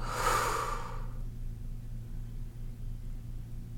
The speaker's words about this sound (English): Take a deep inhale, fill up. Exhale, let it go.